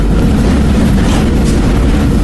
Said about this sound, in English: Oh my God, trains.